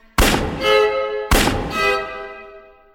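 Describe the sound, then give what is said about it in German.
Pistol shots in a dramatic scene: two sudden, loud bangs about a second apart, each followed by a ringing tail that fades away. “Ah, oh, zum Glück, ich habe nicht daneben geschossen.”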